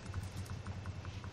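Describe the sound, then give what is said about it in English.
Faint, evenly paced clicks of fingers typing on a computer keyboard, many quick keystrokes in a steady rhythm with no voices over them. “That's actually, I was typing Final Thingies MP3.”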